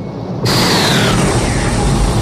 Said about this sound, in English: Someone is stealing the Enterprise. Warp speed.